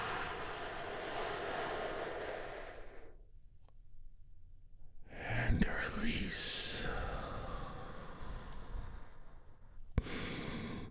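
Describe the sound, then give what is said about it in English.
A deep healing breath taken during a guided morning relaxation: a long airy inhale, a short pause, then a long breathy exhale, with another breath beginning at the end. “As we get started by taking a great big healing breath all together, here we go, and...”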